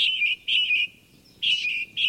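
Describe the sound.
Song of a hybrid male finch on an island: four bright, high-pitched chirping phrases separated by short gaps, each a rapid buzzy trill, with no voices.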